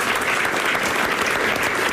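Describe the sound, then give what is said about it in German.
Audience applause at a stage event as a guest is called up, a dense wash of many overlapping claps, loud and unbroken for two seconds. “Ein Applaus bitte.”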